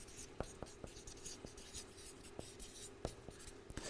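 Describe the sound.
Pen or marker writing on a surface makes a faint, steady scratching. It is dotted with many sharp little taps and clicks as strokes begin and end.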